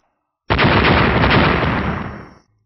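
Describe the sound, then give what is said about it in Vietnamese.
A loud explosion sound effect for silver lights bursting in the sky: one sudden, roaring blast with a dense rumbling texture that holds for about two seconds, then fades out. “Mấy chục tiếng nổ chấn động đất trời liên tiếp vang lên, vô số tinh quang màu bạc ở trên trời nổ tung ra”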